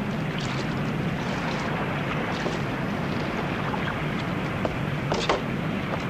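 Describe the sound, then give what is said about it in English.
A ship's boat moves across open water toward a raft, a steady wash of water and wind noise with a few faint knocks near the end. “As the ship's boat slowly nears the raft, Larson watches.”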